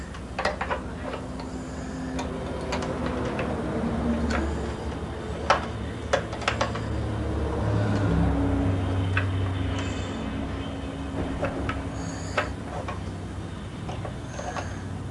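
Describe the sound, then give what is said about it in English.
Clicking from a screw being tightened, with many faint, irregular ticks and sharper clicks spread across the whole stretch over a low steady background noise. “Try to make the screw tighter. Really tight.”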